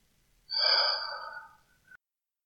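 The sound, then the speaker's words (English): Hot breath close to the ear: one long, breathy exhale swells abruptly, then thins out over about a second and a half and ends in a soft click. Nothing else is heard around it. “If I want you to have the feel of my hot breath on your neck,”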